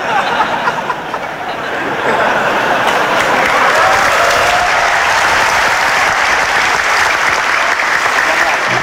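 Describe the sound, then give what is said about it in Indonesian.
Audience applause during an Indonesian political speech, a dense roar of clapping that swells after a couple of seconds and holds loud and steady, with some crowd murmur mixed in. “Waktunya keplok, keplok.”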